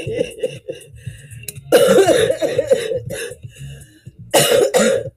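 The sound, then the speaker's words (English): A person who has been sick coughs harshly, with a few rough, throaty bursts that build into two heavier, louder bouts. No one speaks. “even though I've been sick and I've coughed all over these tapes”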